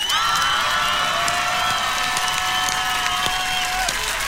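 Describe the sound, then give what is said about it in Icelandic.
Applause and cheering from a concert audience in Garðabær rise as a loud, continuous wash of clapping and crowd noise that holds steady for the whole stretch. “Já, við gefum hann gott klapp.”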